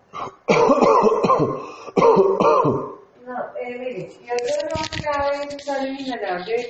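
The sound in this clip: A patient coughs and clears their throat during a medical examination, with a couple of harsh, sharp bursts in the first half, followed by talk.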